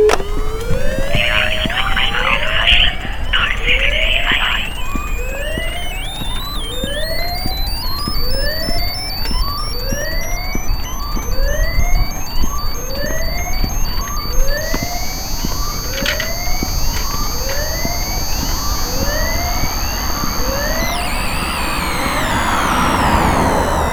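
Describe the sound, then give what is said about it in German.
Emergency sirens in layers: a loud, repeated rising whoop about once a second sweeps upward over and over, while steady high-pitched wailing tones run above it, and the mix breaks into noisy wash near the end. “5. Sirenen.”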